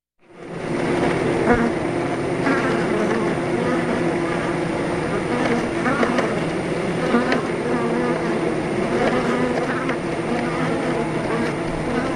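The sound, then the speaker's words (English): Carnelian bees buzzing in a dense, continuous drone that holds steady and fairly loud for the whole stretch, with many overlapping wingbeat tones forming a thick hum and no pauses. “That's either the worst or best sound of summer, depending on how you feel about bees. Our listeners, Sukina and Michael, sent us the sound, and you're listening to carnelian bees,”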